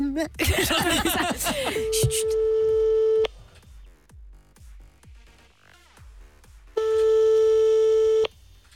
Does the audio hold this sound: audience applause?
no